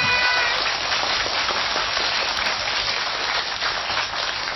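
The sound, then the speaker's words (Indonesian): An audience applauds at a children's singing talent show, a thick, continuous patter of many hands that holds fairly steady and eases only slightly toward the end. “Mana tepuk tangannya?”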